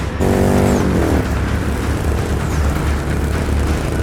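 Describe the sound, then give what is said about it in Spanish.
Antique motorcycle engine in the video game Gears of War 4. A buzzing harmonic engine whine in the first second gives way to a steady, loud rushing roar that continues to the end without voices. “esta moto es una antigüedad. Espera, ¿te preocupa la moto?”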